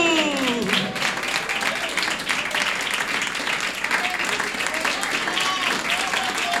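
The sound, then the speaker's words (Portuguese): A church audience applauds during a worship service, with brisk, continuous clapping at steady strength throughout and voices calling out over the clapping. “Pode aplaudir o Senhor Jesus.”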